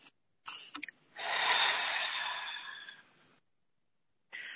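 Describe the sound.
During a guided breathing exercise, a long, slow exhale hisses out for about two seconds and fades. A few short breathy sounds come just before it, and quiet gaps surround it.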